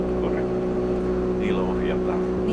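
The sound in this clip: Steady low drone of the two engines on an old cable ferry at Taipalsaari, Finland. A constant hum with steady tonal harmonics runs throughout under people talking.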